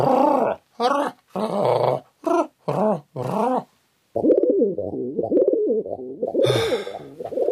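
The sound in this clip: A male pigeon coos while trapped inside a garden shed. A run of short, throaty, warbling bursts gives way to a long, continuous, low rolling coo.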